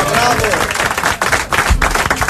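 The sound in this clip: Audience applause at a live stage show, with dense, steady clapping from many hands and voices mixed in, holding loud and even across the short clip with a few brief dips.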